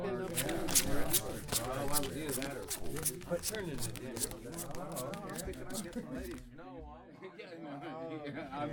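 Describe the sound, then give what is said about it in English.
Playing cards being shuffled and dealt at a card game among men in a camp barracks, a crisp papery riffle and rapid flicks running under steady male conversation throughout. “just deal the cards, will you”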